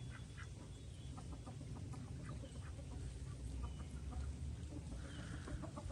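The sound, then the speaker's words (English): Ducks call from a vegetable garden, giving many short clucking, quacking calls that rise repeatedly over a steady outdoor rumble, with no talk. “What's wrong, ducks?”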